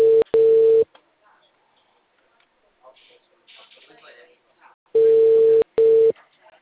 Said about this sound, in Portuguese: Vou ligar agora no manual pra ver se. Pra essa mesma pessoa.